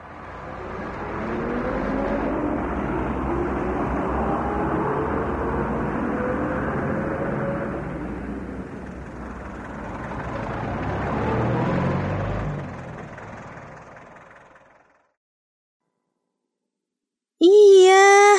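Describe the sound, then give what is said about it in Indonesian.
A car engine drones as a steady rumble with a slowly rising tone, swells again later and then fades to silence, followed by a brief voice at the very end. “Benar sekali, itu adalah suara mobil.”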